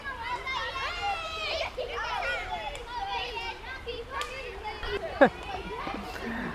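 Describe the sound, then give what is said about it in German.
Many children's voices as school classes pass through a park: lively chatter, calls and shrill shouts overlap continuously, loud and busy, with a few footfalls and scattered knocks mixed in. “Heute viele Schulklassen unterwegs. Ja. Sehr schön. Gucken sich alle die Bäume an und den schönen Park. Wir müssen einen Moment warten, es ist zu laut.”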